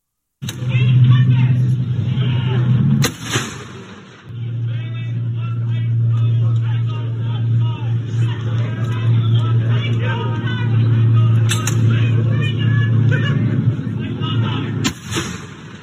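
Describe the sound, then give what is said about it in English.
Artillery guns firing in sequence during a night firing exercise: a few sharp, booming reports cut through a continuous low rumble, with murmuring voices of onlookers in the background. “Let's cut now to the audio of a night firing exercise that I saw that really sent the hairs up on the back of your neck.”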